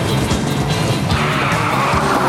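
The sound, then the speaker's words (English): A car engine roars steadily as the vehicle speeds hard around a corner during a chase, with a continuous loud rush of engine and tyre noise. “The red car ahead weaves wildly around a corner.”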